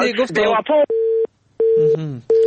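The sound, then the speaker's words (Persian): A telephone line tone after a caller's call was cut off: a few steady, single-pitch beeps separated by short silences, with a voice talking at the start and overlapping briefly between the tones. “متاسفانه تماسشان باز قطع شد”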